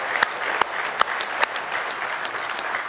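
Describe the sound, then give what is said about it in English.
A church audience applauds its ministers with steady, dense clapping, a few sharper claps standing out early on. “God, let's give them a nice hand tonight, if you will.”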